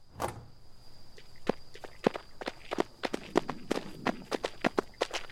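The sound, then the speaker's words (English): Footsteps of several people running, a quick series of many soft thuds at an uneven pace, faint and alone over low background hiss. “We ran towards the faint blue lights.”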